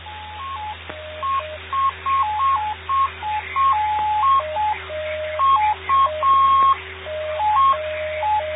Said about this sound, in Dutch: Deze mode heet PI4. Het zijn toontjes waar digitale informatie in zit